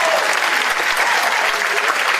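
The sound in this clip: Applause from an audience cheering a man, dense and even clapping that stays loud and steady from start to finish with no clear break.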